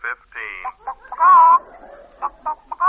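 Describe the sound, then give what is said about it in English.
Hens cluck in a hen house, heard over a wire: a run of short, throaty clucks surrounds a longer, wavering cackle in the middle, and more clipped clucks follow. “It's a direct wire from the hen house to my office. Now listen. Hen coop number 4, Bedelia”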